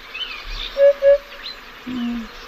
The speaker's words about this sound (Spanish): ¿Cómo suena una abubilla? Vamos a ver cómo canta la abubilla.